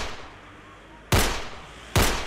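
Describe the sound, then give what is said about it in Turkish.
Gunshots from a shooting between two cars: two sharp, loud cracks spaced under a second apart, each with a short decaying tail over a steady background hiss. “Beş el ateş ediyor.”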